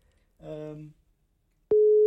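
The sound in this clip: A telephone call's ringing tone comes in abruptly near the end as a single steady, pure beep, after a short moment of a voice speaking.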